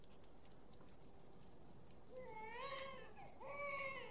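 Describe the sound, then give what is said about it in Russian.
A newborn baby boy cries just after birth, with two high, wavering wails in the second half following a steady low hiss. “Услышав плач ребенка”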